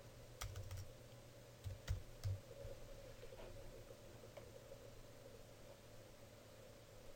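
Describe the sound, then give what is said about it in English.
Quick keystrokes on a computer keyboard as a search phrase is typed, a burst of clicky taps in the first couple of seconds before the keys fall quiet over a faint steady hum. “So I'm going to type in resale rights products and Amazon.”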